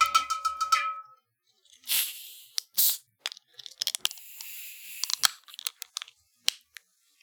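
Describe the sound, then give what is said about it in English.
Faygo soda cans cracked open: two sharp cracks, each followed by a brief fizzing hiss, then scattered small clicks and handling noises. “I still have a couple cans of it left, but I just haven't been drinking it to make sure I always had some stocked. Very smart, very smart. Let's crack them open.”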